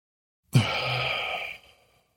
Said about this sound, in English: just like fill your lungs up as much as you can, and then you hold it for 10 seconds. And I'm going to breathe in again and hold it for 10 seconds.